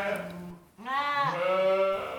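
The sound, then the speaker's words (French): Sheep and lambs bleating in a sheepfold: a rough, noisy call gives way to a long, quavering, strongly pitched bleat that fills the rest of the moment. “Chaque jour, il nourrit et soigne son troupeau, épand de la paille et, lorsque c'est nécessaire, prend le temps de faire téter les agneaux récalcitrants.”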